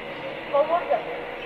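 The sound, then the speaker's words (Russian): Electric commuter train coming to a stop: a steady rumbling noise with a few short tonal squeals rising out of it midway. “Электричка остановилась.”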